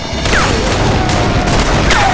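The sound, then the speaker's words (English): A volley of gunfire from above rains down on mounted soldiers, rapid shots blurring into a loud, continuous crackle. Two short, descending whines cut through the barrage. “The soldiers' horses began to crow hop and jump under the onslaught of the fire from above, making the soldiers unable to return fire.”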